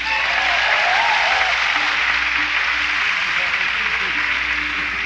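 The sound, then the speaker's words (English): Audience applause at a live country music show as a band member from North Carolina is welcomed on stage. Dense, loud clapping continues steadily throughout without breaks. “Let's make him welcome. What do you say? Give him a hand.”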